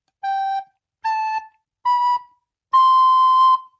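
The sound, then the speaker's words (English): A wind instrument plays the notes G, A, B and C, four clean sustained tones stepping upward in pitch one after another with short gaps between them. The final note is the loudest and held longest. “So I'm going to play now from G all the way up to that new highest note, C.”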